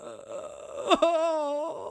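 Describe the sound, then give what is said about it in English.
A voice imitates a stifled, whimpering cry, as of someone curled in the fetal position: a strained, whiny vocal tone broken by a sharp catch, then a sustained, wavering moan that cuts off. “It just cuts to Sean William Scott in the fetal position, like not crying, but you know, doing that cry where you're like,”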